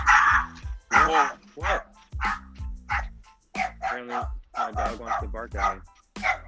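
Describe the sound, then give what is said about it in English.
A dog barks at its owner with many sharp, high yips and barks in quick succession. Some are whiny and wavering, and all are loud and insistent throughout. “apparently, my dog wants to bark at me.”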